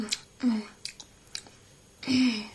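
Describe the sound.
Chewing on a small taste of poppy seed filling for poppy seed cake, the poppy seed cooked in milk, gives a few short, soft, wet bursts of mastication mixed with a couple of low hummed voice sounds.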